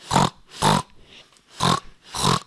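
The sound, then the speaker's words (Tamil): A pig grunts four times in an even rhythm. Each oink is a short, harsh, nasal burst, and the grunts are separated by brief pauses with no talk. “இது பேர் பன்னி சத்தம்.”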